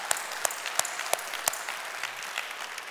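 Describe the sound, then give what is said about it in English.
A church audience applauds in welcome, a steady patter of many hands clapping with several sharper, louder claps standing out at roughly even intervals. “Let's give put our hands together and welcome them in this morning.”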